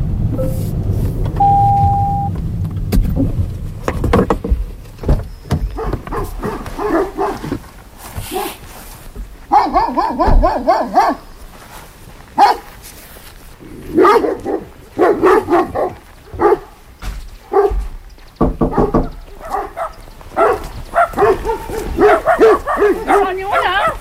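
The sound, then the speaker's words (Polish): Dogs bark and yip repeatedly in a restricted, no-entry area, with many irregular barks and short whimpering yelps rising and falling in loudness. “Zdziwiony jestem, proszę pani, że tutaj dużo takich psów, ale z drugiej strony nie dziwię się, bo trochę strach tutaj.”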